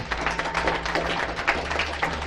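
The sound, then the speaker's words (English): A church audience applauds during a morning service with a dense run of overlapping claps at moderate loudness, uneven and continuous throughout. “We're handing out applause this morning.”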